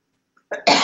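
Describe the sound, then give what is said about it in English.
A person coughs while nearly choking: a harsh, short burst breaks the silence, then a louder, rougher cough follows and is held to the end. “Excuse me. I'm just about to choke.”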